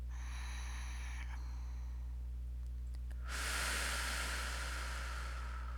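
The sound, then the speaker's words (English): A deep breath drawn into the belly during a relaxation exercise: a sudden, sustained airy rush of noise that begins partway through and holds to the end, over a steady low hum. “Take a deep breath in your belly.”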